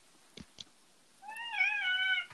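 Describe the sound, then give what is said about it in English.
A cat gives a single drawn-out, tonal meow after two brief soft taps. The meow is clear and moderately loud, and it fades at the end. “Whose pussycat is that? Come on, cat, I'm sorry.”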